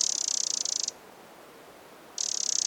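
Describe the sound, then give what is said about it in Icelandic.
A bird gives an alarm call of rapid, shrill, high-pitched clicks in two fast buzzing bursts, with about a second of quiet between them. “Þessi reiðihljóð eru oft merkilega lík milli mismunandi fuglategunda. Þetta eru oftast einhverju mjög hraðir smellir, oft frekar skrækir, fluttir í hárri tónhæð.”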